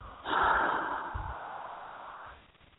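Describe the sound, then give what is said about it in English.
A deep breath during a guided breathing exercise: one long, airy breath of about two seconds that swells quickly, holds steady, then slowly fades, with no talking over it. “Deep, deep breath. And let go.”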